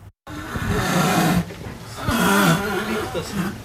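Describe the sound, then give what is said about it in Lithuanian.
Young seal pups call at a Baltic Sea animal rehabilitation centre: two long, drawn-out moaning cries with a low, wavering pitch, separated by a short pause. “Lietuvos jūrų muziejaus Baltijos jūros gyvūnų reabilitacijos centre ruonių jaunikliai traukia paskutines savo giesmes.”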